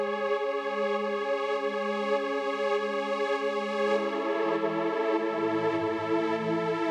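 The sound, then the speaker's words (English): A soft, sustained synth pad built on the root note of a bass part, steady and smooth. Partway through, a lower tone a fourth below enters beneath it, and both hold until the end. “it's like the root note of the bass part and then a fourth below.”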